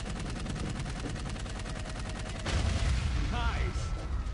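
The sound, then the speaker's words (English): Gunfire from jetpack-mounted guns in the Xbox 360 video game Dark Void: a rapid, steady stream of sharp shots that turns into heavier, louder blasts partway through. “Now we can shoot from our jetpack.”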